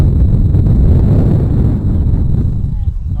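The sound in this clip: Strong wind roars in a dense, steady low rumble that stays loud and unbroken throughout.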